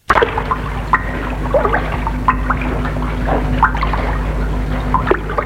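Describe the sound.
Oars dip and slosh as a long rowboat is rowed, irregular wet splashes and gurgles recurring over a low, steady hum, with no voices.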